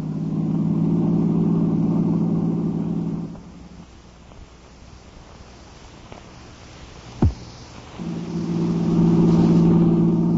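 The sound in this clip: A car engine drones loudly and steadily, drops to a low murmur in the middle with one sharp thump, then surges back up to full loudness.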